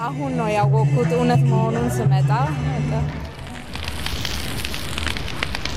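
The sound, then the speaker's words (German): A tall wood pile wrapped in white cloth goes up in flames at a celebration in a square. Voices carry at first, then a steady, dense crackling roar of burning takes over. “In der Mitte des Platzes geht ein hoher, mit weißem Tuch umwickelter Holzstoß in Flammen auf.”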